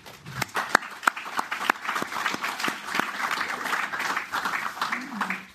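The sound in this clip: An audience applauds to welcome a debate panel: individual sharp claps stand out over a moderate bed of clapping that carries on steadily to the end.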